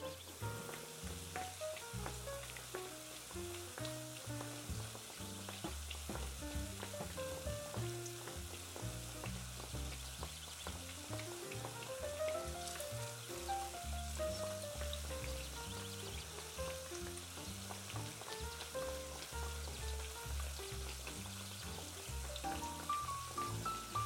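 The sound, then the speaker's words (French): Faint, continuous sizzle of a donut frying in a pan, a soft crackling hiss running under background music the whole time. “Et dès que vous voyez une belle couleur dorée sous le donut, vous pouvez le retourner pour cuire l'autre face.”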